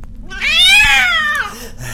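A single long, loud cat meow, drawn out and wavering, rising and then falling in pitch, heard alone over faint background noise.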